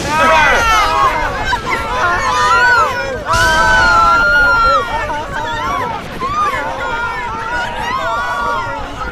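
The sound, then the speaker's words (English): Crowd of citizens fleeing a bombardment in an audio drama: a dense mass of shouting and crying voices with rushing, windy noise, loud and continuous throughout. “Running blind, the citizens fled from the bombardment, trampling those who fell beneath them.”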